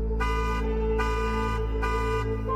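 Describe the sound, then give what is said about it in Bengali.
Loud car horn honking outside in repeated blasts, with bright, brassy bursts rising over a continuous steady horn tone. “বাইরে 3 বার horn বেজে উঠল”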